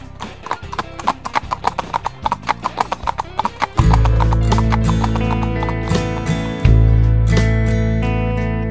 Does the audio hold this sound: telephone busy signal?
no